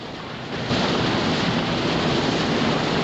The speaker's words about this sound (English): The teams ferried across calm water to the submarine.